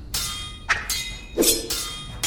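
Metal swords clash in a duel, several sharp ringing clangs struck in quick, uneven succession, each leaving a bright metallic shimmer, with no talking.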